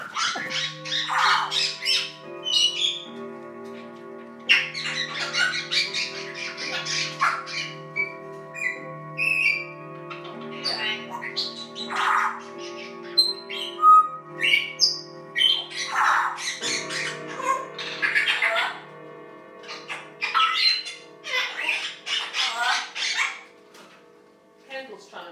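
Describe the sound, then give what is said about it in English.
A pet bird makes electronic-sounding noises: many loud bursts of squawks and bright chirps over long, steady whistled tones, with brief gaps between. “That cool electronic noise is Frankie. It's very cool.”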